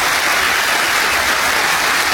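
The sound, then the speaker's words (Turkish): A crowd claps loudly at a university graduation ceremony in Turkey: a steady, unbroken wash of applause with no voices heard over it. “Ondan güçlü bir alkış çıkartabiliriz.”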